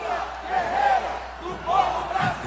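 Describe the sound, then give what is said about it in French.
Thousands of Lula supporters chant at a rally outside a football stadium in São Paulo. The loud, massed voices swell and ebb in two rhythmic surges of a sung chant. “C'est au son de Lula, guerrier du peuple brésilien, que l'ancien président a été accueilli par des milliers de militants chauffés à blanc après 4 heures de discours de syndicalistes, de chants et de musique populaire.”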